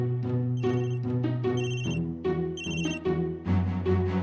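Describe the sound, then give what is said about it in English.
A Tile tracker rings so it can be found by sound, playing a loud, repeating electronic ringtone melody with bright high chimes recurring a few times, alone with no voices. “you can also activate a Tile to ring so you can find it by sound.”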